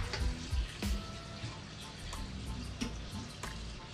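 Running tap water rinses the starch off cooked spaghetti: a steady, quiet hiss broken by a few light clattering knocks.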